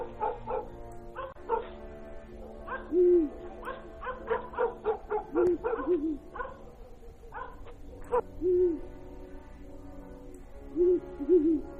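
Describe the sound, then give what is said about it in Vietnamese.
Dogs bark across a village at night while an owl calls, its hooting repeated several times among the barks. The barking comes in many short, loud, uneven bursts, with some yips and whimpers, and no voices. “tiếng chó cắn ma vang lên khắp xóm. Thoáng trong đó là tiếng khóc, tiếng cười lẫn lộn, rồi tiếng chim cú lợn nó cứ rú lên khèn khẹt khèn khẹt, ghê lắm.”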